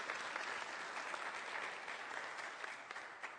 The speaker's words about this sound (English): Let's give her a hand. Congratulations.